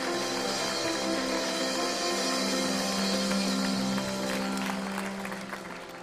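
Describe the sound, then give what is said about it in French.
A church audience applauds and cheers in celebration during worship. Dense, steady clapping and crowd noise continue throughout, easing slightly toward the end. “Est-ce qu'il y a un peuple qui peut acclamer Jésus peut-être et le célébrer dans ce lieu”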